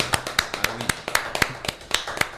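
Scattered audience applause, many sharp hand claps at an uneven rhythm from a small group, each clap clear and separate rather than merging into a roar.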